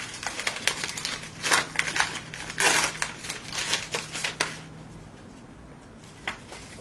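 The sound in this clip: Paper crinkling and rustling as a greeting card that came with a gift of Post-its is opened and handled: irregular crisp crackles and rubs, busy at first, then thinning out to near quiet.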